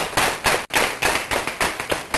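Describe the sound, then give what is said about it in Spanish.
Applause for a medical team after a child's heart procedure in a hospital, loud bursts of clapping in an uneven, pulsing rhythm with one brief break, no voices over it. “Vamos a dar un aplauso pues a ustedes.”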